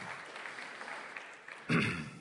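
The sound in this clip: Applause breaks out among a church audience, a sudden loud burst of clapping near the end after a quieter stretch of low murmur.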